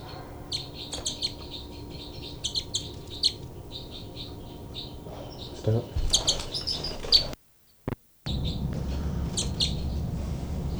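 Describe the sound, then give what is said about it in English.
Two birds trade sharp, high threat calls while fighting, in many repeated chirping bursts over a steady low hum, with a brief dropout near the end. “Both birds fight by threat call by 318.”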